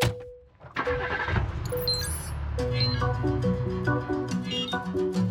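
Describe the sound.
A taxi engine starts and drives off as a sound effect. Its low rumble is mixed into loud, continuous, busy music with bright chime-like tones.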